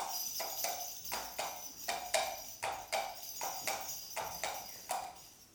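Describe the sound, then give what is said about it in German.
A horse gallops down a country road, its hooves striking sharp, bright clops in a steady, fast rhythm of roughly two beats a second. The clops are loud and heard alone throughout. “im Galopp ging es nun die Landstraße hinunter.”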